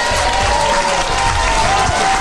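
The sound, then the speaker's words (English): A comedy audience cheers and applauds at the end of a set, a loud, sustained roar of clapping and crowd noise that stays even from start to finish. “Big cheer at the end.”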